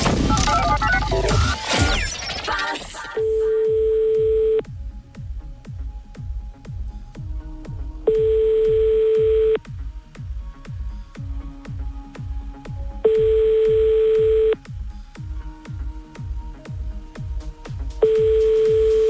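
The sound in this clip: An outgoing telephone call ringing: a short burst of loud noise, then four steady single-pitch ringback tones, each about a second and a half long and spaced roughly five seconds apart, over a faint, fast ticking pulse.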